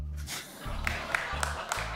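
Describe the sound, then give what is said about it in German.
A few sharp single hand claps from one person in an audience, evenly spaced and fairly quiet, heard beneath a voice that is talking. “Oh, wer hat hier geklatscht?”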